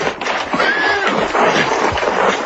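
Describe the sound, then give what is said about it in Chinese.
A horse gives a whinnying neigh in an arched, high tone, which sits over a steady, noisy background. “我的马，快点！”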